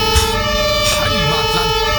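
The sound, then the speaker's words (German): A fire engine siren sounds loud and sustained, a tone-rich wail that fills the whole clip without a break. “Aber das passt schon, tatütata. Ja, Bad Buchau bekommt nämlich ein brandneues Feuerwehrauto.”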